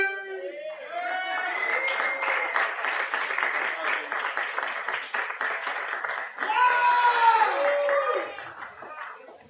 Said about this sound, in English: Give you everybody a round of applause real quick.